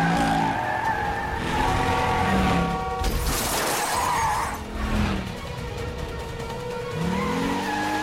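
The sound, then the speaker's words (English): Tires squeal as a car skids hard around a corner and is hurled across a busy road, with the engine roaring loudly under a long screech that swells into a noisy, rough burst midway before the skid continues. “Danny slides the car around a corner, then hurls it across a busy road, causing an accident.”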